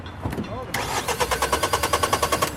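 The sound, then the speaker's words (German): Starter cranking of a car whose flat battery has just been recharged by a roadside breakdown helper: many quick, even pulses in a steady rhythm, following a brief stretch of voice at the start. “Auch da eine Batterie, die streckt. Jetzt dürften die mir mal gerne starten.”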